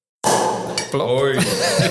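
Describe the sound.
Beer glasses clinking together in a toast: a few bright, ringing clinks and some glassy handling noise, with voices talking around them.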